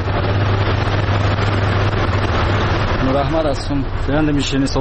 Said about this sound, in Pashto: د نوموړي خبرې د شیرنۍ جوړولو د ماشین په غږ پیلېږي